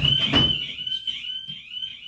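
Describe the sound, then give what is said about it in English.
Alarms go off in a radio studio: a shrill, steady, high-pitched electronic tone that wavers slightly and sounds loud and unbroken throughout. “You mentioned something bad about Rapoli, then all of a sudden all our alarms go off. Do we have an intruder? I have no idea what that is. Intruder alert.”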